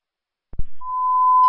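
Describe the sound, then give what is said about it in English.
A steady, high electronic alert tone sounds at a fire department dispatch. It follows two short thumps and holds unbroken to the end, with brighter overtones appearing at the very end. “there's an alarm going off.”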